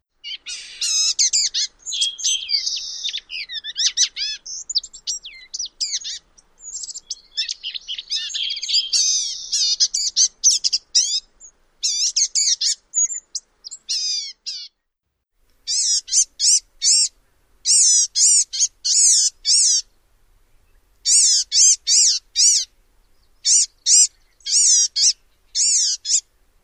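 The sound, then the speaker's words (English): A blue-gray gnatcatcher gives a variety of calls: thin, high, wheezy notes and buzzy phrases that run nearly continuously, then break off briefly before returning as quick, evenly spaced bursts of chatter. “So one more time, a variety of sounds from the blue-gray gnatcatcher.”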